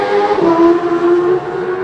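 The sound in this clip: A Suzuki racing motorcycle setting off from the start of a road race, its engine giving a loud, steady buzzing drone that holds a fairly level pitch throughout.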